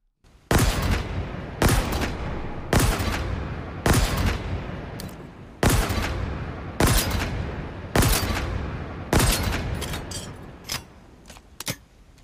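Gunfire from the Mangler weapon in a Halo video game: eight sharp, loud blasts about a second apart, each with a decaying tail, followed by a few fainter clicks.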